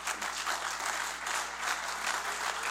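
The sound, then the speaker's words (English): Congregation applauding during a church service: dense, steady clapping that holds at an even loudness for the whole stretch, with no talk over it. “Come on, would you give Him a real applaud? Applaud the Lord.”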